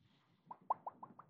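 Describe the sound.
Bubble bursting pop sound effect: a quick series of six faint, hollow plops at an even rhythm.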